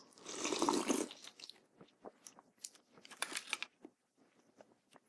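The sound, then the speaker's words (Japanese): Someone eating tofu miso soup: a short burst of noisy sipping opens, followed by soft, irregular chewing and small wet clicks that grow sparse toward the end. “もう見た感じは完全に豆腐汁です。 まあ豆腐ですよ。 豆腐の味噌汁です。いただきまーす。”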